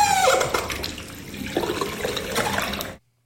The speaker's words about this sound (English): It's the squeaky tap. In the bathroom. It's a tap? It's just a tap turning. The tap turns. The tap turns, splutters, and makes that noise.